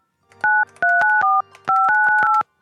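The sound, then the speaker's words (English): Telephone keypad tones as a number is dialed: a quick run of clean, loud two-tone beeps grouped in short clusters with brief gaps between them, heard alone against silence. “We just see what happens when you call the number. Make sure I got it right.”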